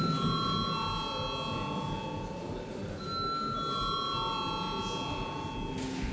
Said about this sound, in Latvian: Lūdzu zvanu.